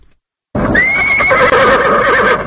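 A horse from the Afghan president's stable in Kabul neighs: one loud, sustained whinny lasting about two seconds, its pitch shaking and wavering toward the end.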